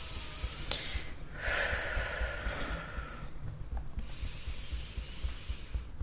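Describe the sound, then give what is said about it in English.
Long nasal inhalations drawn in during a breathing exercise, heard as soft, airy hissing rushes that swell and fade with a quiet gap between them. The breaths are faint and there is no talk. “And then you breathe in at the same time.”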